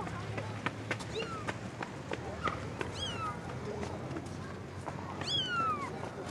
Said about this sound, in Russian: Дети притащили в песок кота.